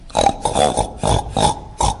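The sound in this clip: A human voice imitates pigs oinking: five short, nasal grunts in a quick, uneven rhythm, loud and alone.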